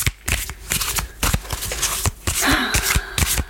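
Tarot cards are shuffled by hand in a series of quick, crisp riffling bursts separated by short pauses, loud and papery with sharp snapping edges.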